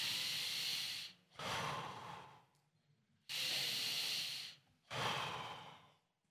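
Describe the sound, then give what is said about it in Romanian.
People forcefully exhaling without inhaling: four long, loud breathy whooshes of about a second each, separated by short near-silent gaps with no audible in-breath. “Expirați. Expirați, am zis. Expirați. Expirați. Fără să inspirați, nu fentați. Expirați.”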